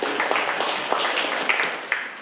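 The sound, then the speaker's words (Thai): Students in a classroom applaud a classmate for answering, giving a soft, continuous patter of clapping with a few sharper individual claps standing out. “ครับปรบมือให้กับเพื่อนเลย”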